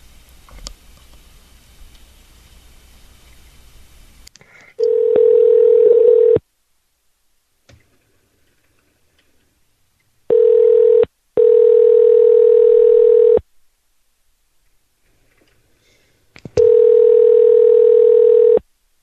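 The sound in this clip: Steady telephone tones ring in a few long bursts separated by silence while an unknown number is dialled, with faint noise before the first tone.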